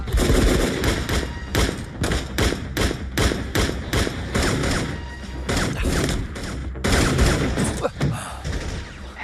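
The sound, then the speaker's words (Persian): Rapid gunshots fired in a row in a video game: many sharp, loud bangs in quick bursts, some overlapping, with brief gaps between volleys and a dense rattle of shots throughout. “دومون سه تا شلیک میکنی پشت سر هم، تو از پایین من از بالا”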